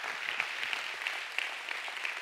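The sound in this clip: A church audience applauds a welcomed guest speaker, dense steady clapping from many hands that holds an even level throughout, with a few sharper individual claps standing out.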